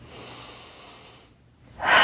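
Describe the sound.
A big deep breath, soft and airy at first, then a louder breathy rush in the final moments.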